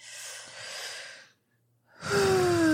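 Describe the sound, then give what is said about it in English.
A deep collective breath from a group of people: a long airy inhale of about a second, a short silent pause, then a louder breathy exhale that ends in a voiced sigh falling in pitch. “so let's all take a collective breath. Ready?”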